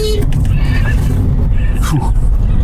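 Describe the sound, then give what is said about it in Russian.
A horse whinnies on a road at night in Khakassia after running out in front of a moving car. A short, sweeping neigh sounds near the end over a heavy, continuous engine rumble, with voices speaking. “На дорогу прямо перед нами выскакивает лошадь.”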